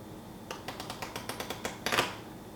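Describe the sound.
A person reenacts the sound of playing cards with a voice or mouth imitation: a quick run of dry, evenly spaced clicks followed by a denser, louder flurry of flicks at the end.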